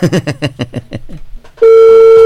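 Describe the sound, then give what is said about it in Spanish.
A telephone ringback tone sounds while calling a second line. It starts abruptly after a stretch of quieter, choppy sound, then holds loud, level and unbroken at one steady pitch. “No sé, ahí está ya timbrando.”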